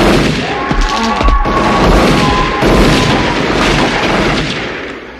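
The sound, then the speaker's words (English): Heavy gunfire from shotguns and handguns in the horror film Nightbreed: many loud, booming blasts repeat irregularly over a dense, roaring din with a sustained tone beneath. “Like they unload probably easily 15 rounds between shotgun shells and, you know, handgun rounds into Boone. Like he's blasted to shit.”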